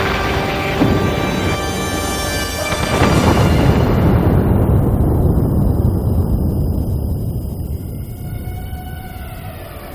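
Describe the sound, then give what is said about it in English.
A missile strikes an office and explodes: a deep, roaring blast swells up and then gradually fades into a long, rumbling tail. “A missile directly hits his office.”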